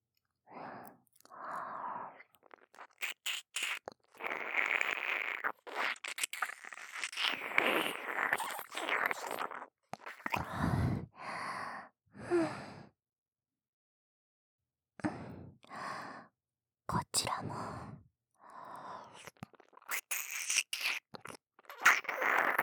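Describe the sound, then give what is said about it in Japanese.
Wet mouth sucking sounds on the ear come in many soft, separate bursts with short pauses between them, mixed with breathy sighs and faint smacking. “お耳の方、思いっきり吸わせていただきます。”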